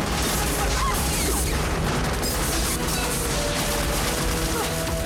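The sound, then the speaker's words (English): Pirates fire their guns in a dense, sustained volley of gunfire, with overlapping loud cracks and booms forming a continuous barrage with no pause. “As Quinn continues to row, two of the pirates line up their guns and fire”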